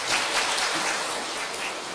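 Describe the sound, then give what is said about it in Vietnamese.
Audience applause at a Buddhist dharma talk, a dense, even patter of many hands clapping that holds steady for the whole moment with no voices over it. “Vỗ tay tức là chấp nhận nha, phải hiểu điều đó.”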